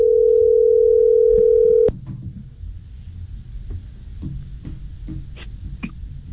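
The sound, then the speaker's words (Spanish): A telephone dial tone hums steady and continuous for about two seconds, then cuts off abruptly, leaving faint low rustling and a few soft clicks. “El tono, es el tono, el tono.”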